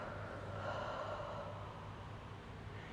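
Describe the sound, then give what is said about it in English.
A slow, deep breath drawn in through the nose and let out again, a faint, soft, airy rush of air sustained across the whole stretch without talk. “Now take a deep breath back in through your nose and exhale.”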